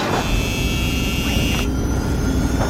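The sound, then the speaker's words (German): An aircraft engine sound effect starts up in a cockpit after a start button is pressed, for takeoff: a steady, loud whirring roar with a thin high whine that cuts off partway through. “Hui, wir starten und heben ab von der Erde.”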